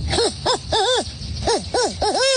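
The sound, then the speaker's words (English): A boy imitates a barn owl call with a quick series of loud hooting cries, each rising then falling in pitch, some doubled together, repeated rhythmically throughout. “Here's some of his bird calls. I'll let him take it away. First we get the barn owl.”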